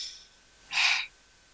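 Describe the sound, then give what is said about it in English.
A single deep breath drawn in during a posture and breathing exercise, a soft airy rush lasting under half a second, heard alone against quiet. “And now take a deep breath. Let your belly come in, take a deep breath.”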